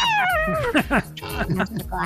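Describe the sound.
A person's voice imitates a cat meowing: a long, drawn-out falling meow followed by a few shorter, whiny meow-like cries, delivered loudly with a nasal, gliding pitch.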